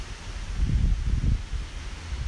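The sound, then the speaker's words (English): Wind blowing outdoors in a peaceful open setting, a low rumbling rush that buffets steadily and swells in soft gusts, with no voices. “Silence, a moment of silence for the wind because it is so peaceful out here”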